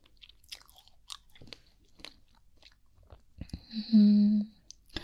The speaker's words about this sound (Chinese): 草莓你不吃，我吃了。